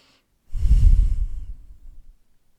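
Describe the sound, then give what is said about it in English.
A deep human breath comes as one long, airy, breathy rush that swells quickly, then slowly fades away to silence. “So let's just take a deep breath here, in and out.”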